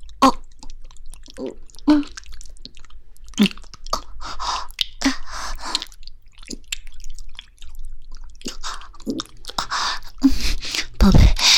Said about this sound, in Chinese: 我买了圣代，晚上又点了烤翅，正在吃东西呢